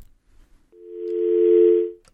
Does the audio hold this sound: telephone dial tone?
yes